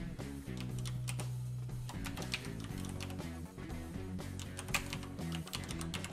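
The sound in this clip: Rapid keystrokes on a computer keyboard as an email address is typed into a map software's HTML5 web client form, many quick clicks at an uneven pace with no talking.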